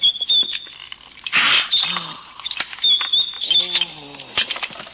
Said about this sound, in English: Now quickly slide the bolt.